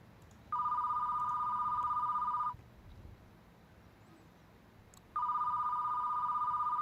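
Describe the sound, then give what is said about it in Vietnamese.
A landline telephone rings in two long electronic bursts separated by a few seconds of quiet. Each burst is a steady, trilling tone at moderate volume. “thì tiếng điện thoại reo. Là số máy bàn.”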